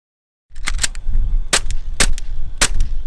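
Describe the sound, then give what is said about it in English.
Fake training guns fire during a police simulation course in Ohio: several sharp, loud cracking shots in an uneven rhythm, each a brief bright burst over a rumbling background. “Officers are firing fake training guns during a new course created to help law enforcement practice for these tense situations.”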